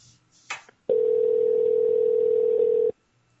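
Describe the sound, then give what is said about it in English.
A telephone dial tone sounds after a call is hung up. One steady, unbroken tone at a single pitch lasts about two seconds and then stops abruptly. A brief burst of noise comes just before it. “Hey, what happened with the phone? I hung up on your ass.”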